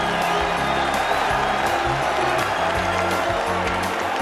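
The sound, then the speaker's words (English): A boxing crowd applauds two heavyweight fighters after the bout, before the scorecards. Dense, sustained clapping blends with cheering and whoops in a loud, continuous roar that holds steady to the end. “Ladies and gentlemen, before we go to the scorecards, a round of applause for these two heavyweight warriors.”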